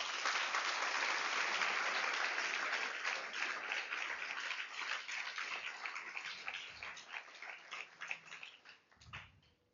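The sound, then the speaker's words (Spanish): Congregation applause during a church sermon, loud and dense at first, then thinning into scattered individual claps that fade out toward the end. “Le da un aplauso al Señor.”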